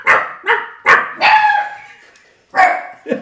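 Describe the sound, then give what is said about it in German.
A dog barks at the front door of an apartment, six loud, sharp barks in an uneven run. The fourth is drawn out longer, and there is a short pause before the last two. No other sound is heard. “Genau das. Ein Hundi. Ein Hund”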